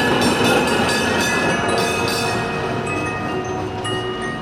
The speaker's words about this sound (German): Die Straßenbahn!